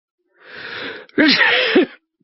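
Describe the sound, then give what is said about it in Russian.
A sneeze from a heavyset, red-blotched police chief in an air-conditioned station: a breathy, hissing intake builds up, then breaks into a loud voiced burst with wavering tone that cuts off abruptly. “«Моя фамилия Моррисон», — чихнув, объявил мне начальник”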